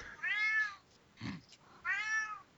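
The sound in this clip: A cat meows twice: two drawn-out, clearly voiced calls separated by a short pause, each loud and tonal against a quiet background.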